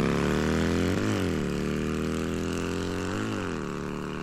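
A car engine keeps running after an attempt to cut its fuel line, when only the light cable was cut. It makes a loud, continuous droning hum whose pitch dips briefly twice and then settles back.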